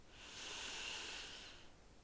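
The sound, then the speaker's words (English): A slow breath drawn in through the nose during a breathwork exercise, heard as a soft, faint, airy hiss that swells and then fades over about two seconds, with no talk. “So it's going to be a 5-second inhale through your nose and then 5-second inhale through your mouth. So it's going to sound like this.”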